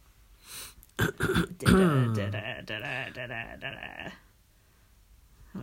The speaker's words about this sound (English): What are you laughing about? I'm coughing.